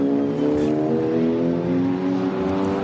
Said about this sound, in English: setting out onto his final lap now, therefore marking it as the final lap of the race for the front-running cars, is car number 44